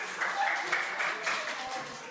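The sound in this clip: Brief, moderate clapping from an audience for a quiz contestant who answered correctly at an environment day event. It is an even patter with a few small swells.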